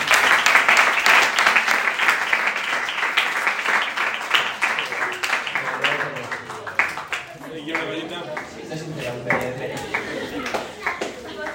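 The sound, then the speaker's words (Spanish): Applause from a group of young people at a gathering in the Sierra Norte de Guadarrama natural park starts loud and full, then thins and fades as voices begin talking over the last scattered claps. “Un aplauso para vosotros.”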